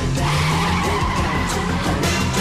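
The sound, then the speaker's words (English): Ferrari tearing through downtown Detroit: tires skid and squeal over a loud, steady engine roar for a couple of seconds, with no pause in the sound. “Back in his Ferrari, Axel accelerates through downtown Detroit.”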